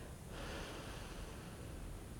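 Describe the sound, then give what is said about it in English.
A soft breath is blown onto a few small flowers, a faint, airy hiss that lasts about two seconds at an even, gentle level. “And with your breath and intention, blowing onto those flowers,”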